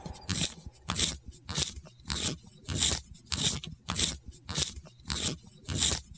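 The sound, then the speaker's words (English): A pencil being sharpened gives many evenly spaced grinding, crunching scrapes in a steady back-and-forth rhythm, each stroke a dense gritty burst with short gaps between, heard alone without talk. “that is a pencil being sharpened”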